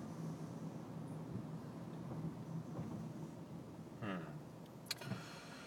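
A car is driving, with a faint, steady low engine and road rumble throughout. A couple of brief higher whirring and clicking sounds come near the end.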